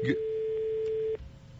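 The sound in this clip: A telephone line tone sounds after a caller hung up: a single steady tone holding for about a second before cutting off abruptly, leaving a low background murmur.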